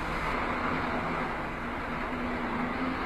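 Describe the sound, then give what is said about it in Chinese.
Steady vehicle engine and road rumble as a car speeds up, a broad, even roar that holds at a constant loudness throughout with no clear change in pitch. “我明白了，坐稳了，我要加速了。”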